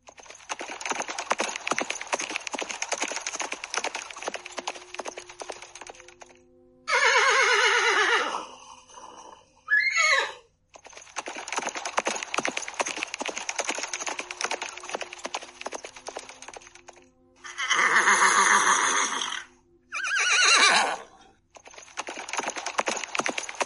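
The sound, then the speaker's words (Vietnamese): War horses neigh in a large herd, several loud, shrill whinnies in separate bursts, set between long stretches of dense, rapid clattering. “Lời vừa phát ra, liền nghe phía sau một trận ngựa hí ồn ào.”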